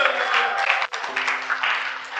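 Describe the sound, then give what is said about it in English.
A church audience claps in praise, giving a dense, steady patter of many hands that briefly dips near the middle before picking up again. “Give the Lord a mighty clap of”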